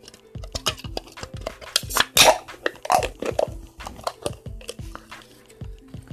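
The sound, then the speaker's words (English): A can of San Pellegrino Limonata being cracked open: a run of small clicks and clatter from handling, with one brief, sharp hissing burst near the middle. “So I'm cracking open a San Pellegrino Limonata to mix with my pre-workout powder.”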